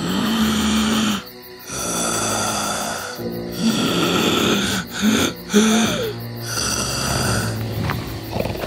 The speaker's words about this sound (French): Et là, il vit la bête dormir profondément. C'était terrifiant à regarder et le ronflement était si fort que tout tremblait dans la grotte.